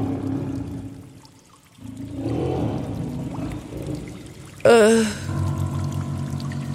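A loud animal roar bursts out inside a cave near the end, with a harsh onset and a wavering, throaty tone. Before it comes a steady sound of pouring, trickling water.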